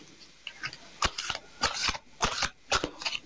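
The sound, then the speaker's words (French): Playing cards being shuffled and drawn for a card reading: several bursts of crisp, papery riffling and flicking, each short and crackly, coming in an uneven rhythm. “Dans l'immédiat, avant que je tire une carte pour vous, j'en prends juste une.”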